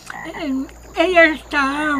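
A frog croaks three times, each a drawn-out, buzzy call with a sliding pitch, separated by short pauses.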